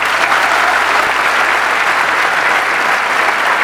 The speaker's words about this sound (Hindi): अरे वाह, let's give a big hand for her.